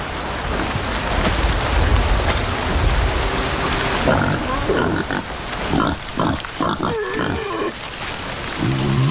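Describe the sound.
Wild boars grunt and squeal as they squabble over food in heavy rain. Steady, dense rain hiss runs throughout, and a cluster of rough animal calls comes in the second half.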